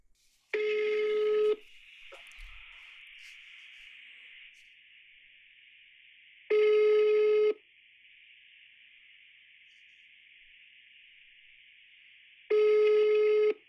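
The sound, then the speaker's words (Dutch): Three ringback tones from a telephone on an outgoing call, each about a second long and evenly spaced roughly six seconds apart. A faint, steady high whine holds on the line between the rings. “Ik denk dat het dus tijd wordt om mijn vader weer eens te bellen. Uh, dat ga ik gewoon eens doen. Als die opneemt tenminste.”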